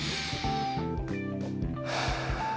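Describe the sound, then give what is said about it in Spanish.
Breath pushed out through the nose, a soft, airy rush that comes mainly near the end, with a couple of brief puffs before it, all over steady tonal background music. “Respira y exhalas por tu nariz.”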